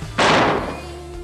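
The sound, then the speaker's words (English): A single gunshot fired during a confrontation between two young men. It is one sharp, loud blast that cuts in abruptly and fades over about a second, leaving a faint lingering tone. “I cannot believe John just shot Patrick. I can't believe my best friend just shot himself.”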